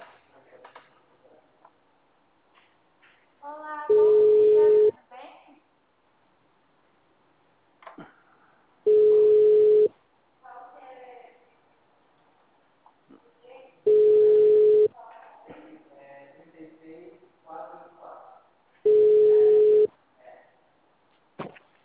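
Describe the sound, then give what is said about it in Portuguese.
Telephone ringback tone as a call connects: four steady, mid-pitched one-second beeps spaced about five seconds apart, with a person talking quietly in the gaps. “Tá chamando.”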